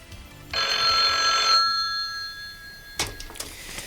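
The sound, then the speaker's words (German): A telephone rings once with a bright, trilling bell tone for about a second, followed after a short pause by a few sharp clicks and clatters. “Sein Anruf ließ nicht lange auf sich warten.”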